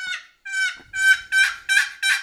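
Turkey yelps made on a turkey call: a loud run of six raspy, evenly spaced notes. Each note breaks from a high tone to a lower one, with no other sound around it.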